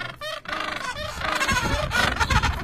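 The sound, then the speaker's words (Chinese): Call of a seabird: a run of loud, rough, honking cries with brassy overtones that overlap and continue almost without pause. “感觉是某一种海鸟。”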